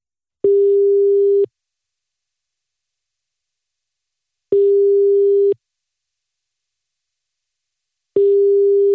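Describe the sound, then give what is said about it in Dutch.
A telephone ringback tone plays while a call waits to be answered: three steady, mid-pitched tones, each lasting about a second, separated by roughly three seconds of silence, with no voices. “En nu gaan we gewoon net zo lang bellen tot hij opneemt”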